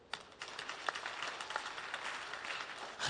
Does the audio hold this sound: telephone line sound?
no